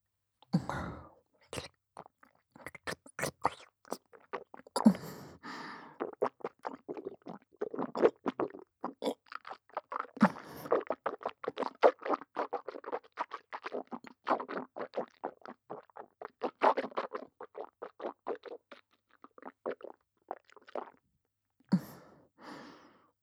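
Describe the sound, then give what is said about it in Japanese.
Wet chewing and mouth sounds come in many quick, soft clicks and squelches over about twenty seconds, with occasional breaths and pauses and a short final burst near the end; no talking. “しっかりと咀嚼させていただき、ご主人様の体調チェックを。ええ、いただきます。”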